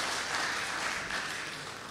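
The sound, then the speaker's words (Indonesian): Audience applause fills an event in Bojonegoro as a dense, even wash of many hands clapping together, holding steady throughout without any speech over it. “Beri tepuk tangan yang meriah.”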